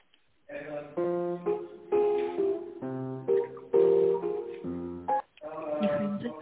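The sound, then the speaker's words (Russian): Synthetic telephone tones over a narrow phone line while a call to a bank is transferred to an operator: stepped melodic notes in short phrases, with a brief break near the end. “Ваш звонок переключается на оператора.”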